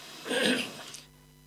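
A single throat clearing, a short rough burst of raspy sound that lasts about half a second, then fades into quiet.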